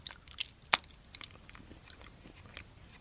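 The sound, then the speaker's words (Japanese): Biting and chewing Meiji milk chocolate: one sharp, loud crunch stands out among a few softer, crisp chewing clicks spread before and after it, with no talking. “明治のミルクチョコレート食べていきたいと思います。いただきます。”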